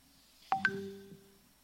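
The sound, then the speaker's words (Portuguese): A WhatsApp notification chimes on someone's phone as two quick, clear electronic tones. The second tone is higher than the first, and both ring on briefly. The sound is fairly faint and stands alone. “O WhatsApp de alguém está conectado. Viu? Jesus está falando com vocês pelo WhatsApp também.”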